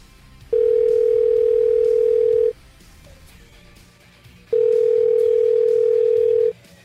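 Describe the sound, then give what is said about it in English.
A telephone line tone plays while calling someone back. A steady, loud, mid-pitched tone sounds in two long bursts of about two seconds each, separated by a pause of similar length. “I'm gonna call him back.”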